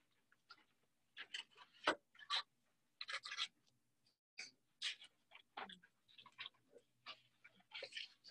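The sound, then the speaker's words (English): Writing words on a board: a faint run of many short, scratchy strokes and squeaks that come in irregular bursts, with pauses between words and no talk. “I'm going to write the word peak interest.”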